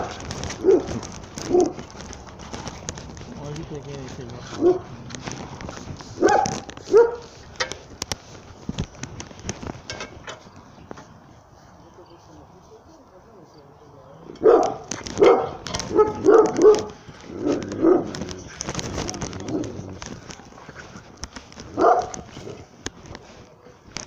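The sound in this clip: A tied-up dog whines, yips and barks to be set free. The high whimpers and short barks come in many uneven bursts, with a quieter stretch in the middle.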